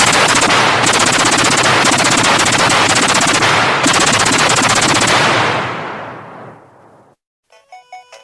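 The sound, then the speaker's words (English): Machine gun fire roars in a dense, continuous stream of rapid loud shots for about six seconds, then tails off and fades out, followed by a few short tonal beeps. “So, where were we? Machine guns. Right, machine guns. Shall we? Certainly.”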